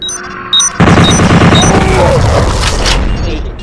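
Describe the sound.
Rapid fire from a turret gun in a video game: a loud, dense burst of quick repeated shots running for about three seconds, preceded by a few short, high electronic tones.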